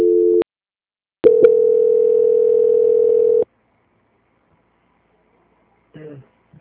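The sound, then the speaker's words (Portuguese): Telephone line tone during a call transfer: a short steady mid-pitched hum, a pause, then a longer unbroken tone of about two seconds, followed by silence and a brief faint voice. “Peço que o senhor fique em linha, que eu vou estar transferindo e já já vão te atender, tá bom? Tá bom. Tá ok, só um momento. Transferência.”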